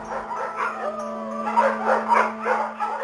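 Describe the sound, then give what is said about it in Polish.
Dogs bark in a village on a cold, clear night, one answering another. There are many yips, barks and howl-like whines, moderately loud, over a steady low hum. “Tylko pies zaszczekał we wsi. Drugi odpowiedział.”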